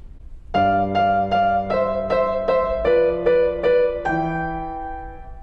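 Repeated thirds are struck on a piano without changing fingers. About ten chords come in a fairly even, slightly uneven pulse and step downward in pitch, and the last chord rings out and fades.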